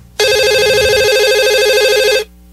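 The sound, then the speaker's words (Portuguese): Telephone ringing while a call is placed: one continuous burst of a warbling electronic ring tone, bright and loud, lasting about two seconds before cutting off. “Deixa eu ligar, é. peraí. Tô ligando, tô ligando.”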